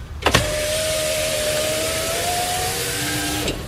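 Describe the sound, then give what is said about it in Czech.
Car power window lowering: a steady electric motor whine runs for about three seconds, framed by a sharp click as it starts and another as it stops, with no talk. “se sklápí okýnko v autě”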